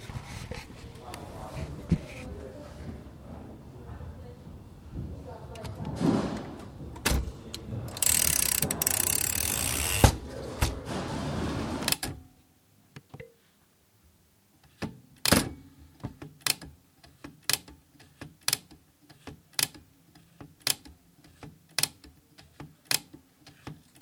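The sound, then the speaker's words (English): Typewriter clatter: a long stretch of rapid, dense key strikes and mechanical rattling, then after a short quiet pause a slower series of sharp, evenly spaced clicks. “Typewriter one.”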